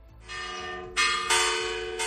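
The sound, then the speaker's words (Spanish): Church bells ring at noon in a Spanish town as part of a rural protest: several loud, bright strikes follow one another, each leaving a long, shimmering decay. “Por eso han llenado sus pueblos, sus ciudades de campanas a mediodía”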